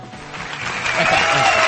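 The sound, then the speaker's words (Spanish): Brief burst of applause from an audience that swells in loudness over under two seconds. “Yo creo que se merece un aplauso al señor Haddad por tener ese portal de comunicación. A ver si la tribuna tiene algo que decir.”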